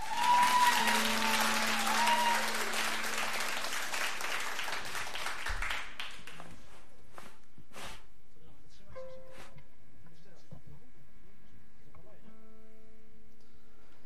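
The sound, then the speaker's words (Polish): A concert audience applauds with dense, loud clapping for about six seconds. The applause fades out, and a few quiet, sparse musical notes follow. “nie przywykliśmy do tego, do takich oklasków, takiego żywiołowego przyjęcia nas na koncertach”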